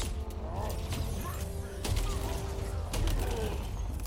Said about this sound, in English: Oh! That looks sick. Nice new shotgun.